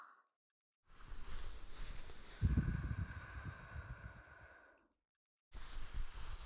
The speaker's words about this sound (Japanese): 息を吹きかけるのか。こうか。